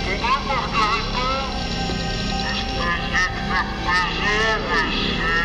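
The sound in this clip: A spaceship's engine drone accelerates in a French science-fiction audio drama as the black hole's pull drives its speed up. A dense, steady hum carries wavering, sweeping tones beneath people talking.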